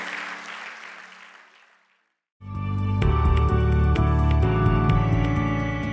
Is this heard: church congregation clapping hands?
yes